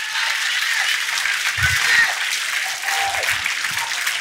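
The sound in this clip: A church audience applauding and cheering, with dense, continuous clapping at a steady level throughout and some voices mixed into the noise.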